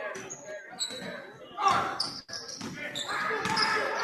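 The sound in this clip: A basketball is dribbled on the court during a game, giving a few dull bounces beneath ongoing talk.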